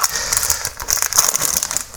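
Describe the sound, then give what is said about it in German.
Plastic sausage packaging crinkles and crackles as it is torn open, a dense run of sharp, bright rustles and snaps throughout, fairly loud with no talking. “Gut, wir reißen die Wurst auf.”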